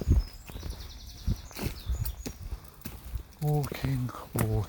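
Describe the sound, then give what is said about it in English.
Footsteps while walking outdoors, a steady run of crisp clopping steps that carry on as a man talks over them toward the end. “Doing some walking.”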